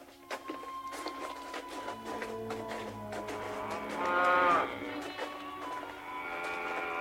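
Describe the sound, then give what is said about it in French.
Cows mooing: a few drawn-out, faint lowing calls overlap one another, with the loudest moo near the middle before the calls taper off. “Qu'est-ce qu'elles ont à meugler comme ça?”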